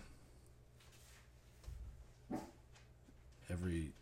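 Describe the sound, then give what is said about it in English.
A dog at the bottom of the stairs gives a few short barks and whimpers, with the last one longer and more tonal, separated by quiet low background hum. “You can't see it, but my dog Lily, she's reacting to something that's not even there.”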